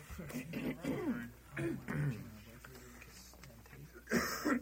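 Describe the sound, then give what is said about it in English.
Throat clearing: a few rough, voiced rasps come in uneven bursts, with a harsher, louder burst near the end. “Throat clearing”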